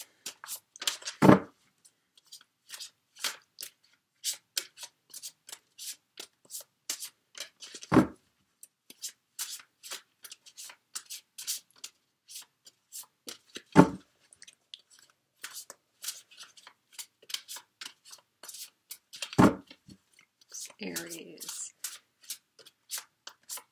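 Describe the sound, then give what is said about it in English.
Shuffling and drawing of tarot cards: many quick, crisp papery flicks and riffles run throughout, punctuated by a few sharper, louder slaps as cards are laid down. “let me go ahead and get the cards drawn for you”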